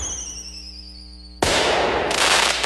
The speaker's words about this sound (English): before the sky lights up with a spectacular fireworks finale.